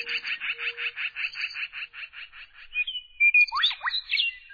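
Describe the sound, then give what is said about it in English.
Birdsong in a western canyon from western meadowlarks, mourning doves and black-billed magpies: a rapid run of about a dozen high, even chirps, then a few quick, sweeping whistled notes, clear and alone. “From a canyon in the west, where western meadowlarks sing, morning doves call, black-billed magpies chatter,”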